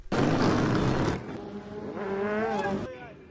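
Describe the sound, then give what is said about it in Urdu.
Motorcycles riding on city streets on a Friday afternoon, some trailing smoke, produce a loud, rough engine roar that eases off, then a wavering, rising revving whine before it cuts out. “یہ جمعے کا دن اور دوپہر کا وقت ہے اور motor cycles چلانے کے شوقین اس وقت سڑکوں پر نظر آ رہے ہیں۔ موٹر سائیکلوں سے دھواں نکل رہا ہے”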